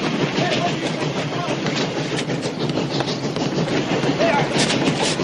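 Train running on the tracks in a film scene, a loud, unbroken rumbling clatter of wheels and carriages that holds steady throughout.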